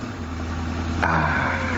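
City street traffic in the Saraçhane area near Şehzade Mosque: a steady, low engine rumble of passing vehicles that swells slightly after the first second and then holds at a constant level.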